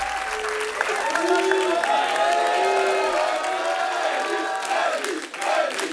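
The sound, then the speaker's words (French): Concert audience applauding and cheering as the drummer arrives on stage, sustained dense clapping with whoops and shouted calls rising above it, holding steady throughout. “Et oui, c'est l'arrivée du batteur qui est salué par le public.”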